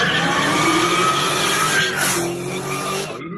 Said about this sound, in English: Little Nissan racing thing.